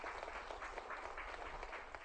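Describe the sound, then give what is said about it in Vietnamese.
Faint audience applause greeting a participant, a soft, continuous patter of many hands clapping at an even level. “Vỗ tay hoan nghênh cho người bạn này.”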